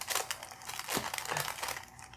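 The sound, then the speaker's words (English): Wax paper is pulled and crinkled across a cake plate before a gluten-free hummingbird cake is frosted, giving steady, crisp crackling and rustling throughout, fairly faint. “There's, what's this stuff called? Wax paper. I'm going to pull it out towards the edge a little bit so it's easier to remove”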